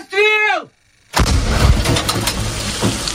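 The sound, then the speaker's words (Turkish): Howitzer fire from Ukrainian artillery shelling Russian positions in the Donetsk region: a brief shouted voice, a moment of silence, then one loud blast followed by a long rumbling decay. “Cephede ise Ukraynalı topçular Donetsk bölgesindeki Rus mevzilerini obüslerle vurdu.”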